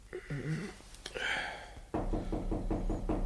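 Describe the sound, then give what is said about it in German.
Knocking on a bedroom door in the morning comes as a fast run of many soft, even raps after a short, quieter passage of other sound. “Der Albdruck dauerte an, bis mein Diener am nächsten Morgen an meine Schlafzimmertür klopfte.”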